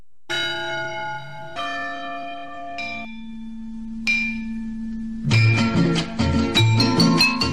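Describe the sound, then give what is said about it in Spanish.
Church bells ring: a few slow, separate strikes with long ringing tails, then several bells peal together in a faster, denser, louder cluster toward the end. “Las campanas de la iglesia están sonando.”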